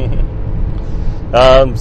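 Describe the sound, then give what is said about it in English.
Steady low rumble inside a car driving on a highway on the 2.5-hour trip between Calgary and Edmonton, a constant road and engine drone, with a brief voice near the end. “We drove down from Edmonton, 2.5 hour drive, and now we're driving back and figured it'd be a good time to”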